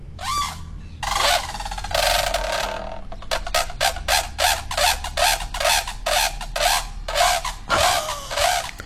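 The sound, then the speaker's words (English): A brolga gives its trumpeting call: loud, rasping, harmonically rich bursts. A few longer calls open the sequence, then many short bursts follow in a quick, steady rhythm. “They trumpet, they call it. Oh, really? Do you want me to play it for you? Yes. Yes, please. Here you go. Here's a trumpeting brolga for you,”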